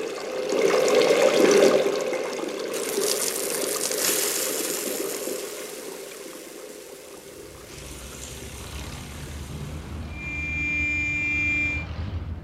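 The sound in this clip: Water running as hands are washed, a steady rushing stream that swells, eases and swells again over about twelve seconds, with no talk.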